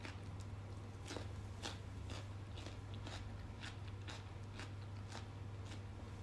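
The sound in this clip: Crisp crunching as vegetable sticks are bitten and chewed, eaten with cold chicken nanban in a business hotel room; many sharp, quiet crunches in an uneven rhythm over a low, steady hum.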